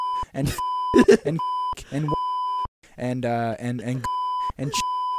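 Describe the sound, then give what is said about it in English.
Censor bleep tones cut in again and again, steady flat beeps alternating with and covering stretches of talking. “They actually have a sound effects section, and a censored bleep is part of their package there. So, for absolutely zero cost, you can bleep the words like”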